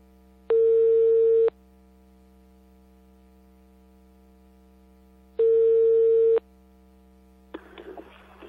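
Ringback tone of an outgoing telephone call: two steady tone bursts, each about a second long and about four seconds apart, over a faint hum, then a short burst of noisy sound at the end.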